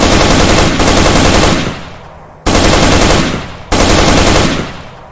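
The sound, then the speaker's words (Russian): Loud bursts of automatic rifle fire: several rapid, sharp volleys cut in abruptly and trail off between them, with the last two starting hard after short pauses. “Поэтому, уже не экономя автоматные патроны, я прочесал кусты впереди несколькими очередями.”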